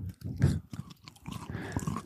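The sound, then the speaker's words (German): Close, crunchy chewing of a caramel chocolate bar with puffed rice: many irregular crackles and moist bites in a steady chewing rhythm, quiet, with no talk. “Oh, die cruncht so schön.”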